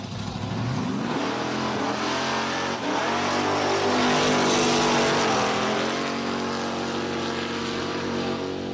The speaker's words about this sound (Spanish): Vaya adelantamiento que se ha marcado el piloto ese, ¿no?